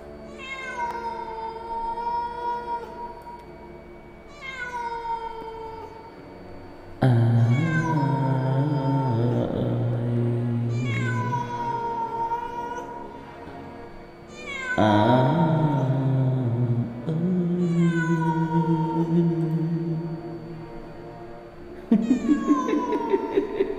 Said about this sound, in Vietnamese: Thỉnh thoảng người ta còn nghe cả tiếng người ru con, tiếng di dỉ khóc ai oán trong cái tiếng con mèo kêu lên thảm thiết.